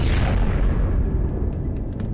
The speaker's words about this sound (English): And just as the rocket is about to launch, the rocket blows up.